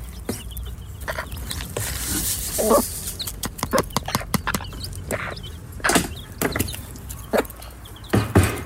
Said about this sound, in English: And we've got chicks of every shape, size and colour.